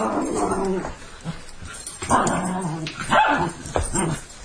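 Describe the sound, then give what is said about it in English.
Dogs barking in an irregular string of sharp barks mixed with some growling and whining, fairly faint and continuing throughout. “That's the dogs. I don't know, maybe you can hear the dogs in the background.”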